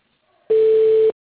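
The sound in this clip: A single steady telephone line tone sounds while a call is transferred to voicemail: one mid-pitched, even beep lasting just over half a second, alone against silence.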